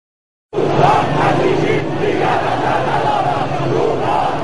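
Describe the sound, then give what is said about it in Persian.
A crowd of street protesters, supporters of reformist candidates angry at an election result, roars steadily after a brief silence, with many voices shouting together at a constant, loud level. “چند ساعت بعد حامیان کاندیداهای اصلاح طلب در اعتراض به نتیجه انتخابات به خیابان ها ریختند.”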